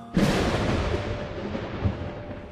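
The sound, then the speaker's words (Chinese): Thunder with heavy rain under dense clouds: a sudden loud thunderclap breaks near the start, then a steady hiss of downpour carries on with a second low rumble later. “阴云密布，滂沱大雨直落而下，落雷闪电，惊天动地。”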